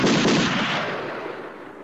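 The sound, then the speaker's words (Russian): Gunfire from rebels shooting from afar toward Red Square: a loud burst of rapid shots fired as a volley, its crackling roar fading away over about two seconds. “Прозвучали выстрелы со стороны бунтовщиков.”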